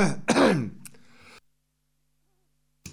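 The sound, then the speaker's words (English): Throat clearing and coughing: a couple of rough, harsh bursts, then a trailing rasp and silence, with a brief noise at the very end. “excuse me, having a coughing fit.”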